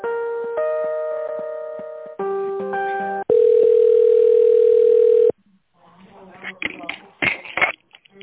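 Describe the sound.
Telephone line tones while a call is being transferred: a run of steady beeping tones that step between pitches, then one long unbroken tone lasting about two seconds, followed by fainter, uneven clicks and line noise.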